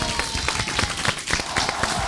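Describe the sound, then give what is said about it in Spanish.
Audience applause for a comedian, brisk dense clapping that holds steady and fairly loud through the whole short stretch. “A ver si me regalan un aplauso, así lo paso.”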